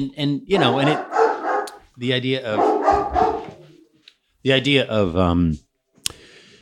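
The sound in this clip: Dog barking and yelping in intermittent bursts, mixed with people talking.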